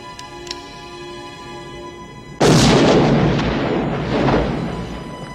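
A single loud gunshot from a film scene cracks out after a stretch of low background hum, then trails into a long, rumbling, booming decay that slowly fades.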